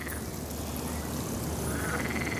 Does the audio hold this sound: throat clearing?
no